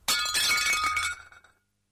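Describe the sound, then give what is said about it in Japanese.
A plate breaks with a single sharp, bright crash of shattering pieces, then a brief tinkling clatter that fades out within about a second and a half. “出勤前の午前8時、妻がお皿を割った。”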